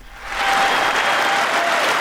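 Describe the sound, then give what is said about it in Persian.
Members of Congress applaud US President Joe Biden before his annual State of the Union address, the clapping swelling quickly from a quieter start into a loud, dense, sustained ovation. “تشویق جو بایدن رئیس جمهوری آمریکا در کنگره این کشور قبل از سخنرانی سالانه‌اش”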